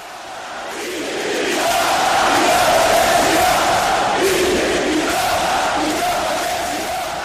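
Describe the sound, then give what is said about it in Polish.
Tens of thousands of FC Barcelona fans at Camp Nou chant for Catalan independence during a match. The massed voices swell and hold in a loud, drawn-out chant that rises and falls in long phrases. “W 17 minucie i 14 sekundzie każdego meczu FC Barcelony rozgrywanego na Camp Nou kilkudziesięciotysięczna widownia rozwija wielką katalońską sektorówkę i skanduje okrzyk Independencia, czyli niepodległość.”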